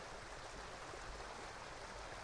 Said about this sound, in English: as shown to you by this beautiful mountain brook.